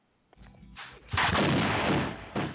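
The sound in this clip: Shotgun blast sound effect: a heavy, booming shot with a long noisy tail, followed by a shorter second burst near the end, after a quieter lead-in.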